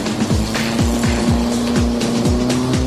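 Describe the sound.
Racing vehicle engine with a makeshift drive shaft, running below full throttle: a fairly loud, steady mid-pitched drone broken by several short downward-sweeping tones that repeat at a regular pace.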